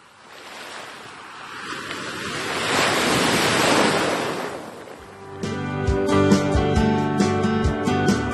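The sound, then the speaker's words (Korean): Ocean surf surges in a broad, hissing roar with some wind, swelling to a peak and easing off over about five seconds before music with steady beats takes over. “시원한 파도 소리가 듣고 싶어지는 요즘.”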